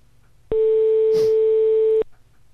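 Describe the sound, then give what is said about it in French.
A single steady telephone ringing tone from an outgoing call sounds loud and even for about one and a half seconds, then stops abruptly. “Allez, c'est parti, on appelle.”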